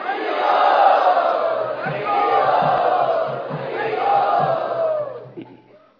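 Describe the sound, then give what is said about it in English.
A crowd loudly chants together to welcome special guests at a gathering, a dense wall of voices that swells in three long waves and fades out at the end. “let us very sincerely welcome all of our special guests by loudly chanting.”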